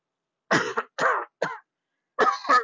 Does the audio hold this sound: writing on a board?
no